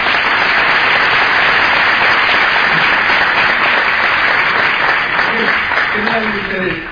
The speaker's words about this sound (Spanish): Ese aplauso, los 88 años